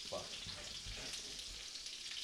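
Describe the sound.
Faint, steady sizzle of bacon frying on a griddle, a soft crackling hiss that continues evenly throughout with no break.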